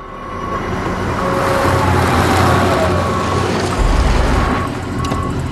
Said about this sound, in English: She stops scrubbing and senses a car driving up the road.